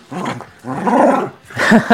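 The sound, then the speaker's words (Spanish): A dog barks playfully in three loud bursts of rough, growly barking, separated by short pauses, with no talk. “Fausto, pero si hace rato que estaba esperando que ladrara, ¿ya? Bueno, ahí, pero más que enojado, está juguetón, Fausto, diría.”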